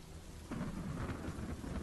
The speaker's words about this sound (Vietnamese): Trên trời cơn mưa không những không chịu ngớt đi,